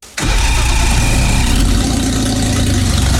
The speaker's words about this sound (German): So klingt es, wenn sich Ihr Auto nach einem neuen Auspuff sehnt.